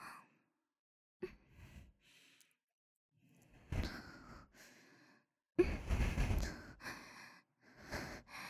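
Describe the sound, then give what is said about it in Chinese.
Soft breathing close to the ear, several breathy sighs and exhalations separated by silent pauses, faint and intimate with no other sound. “是喜欢我的呼吸的热气喷洒在您的耳侧吗？”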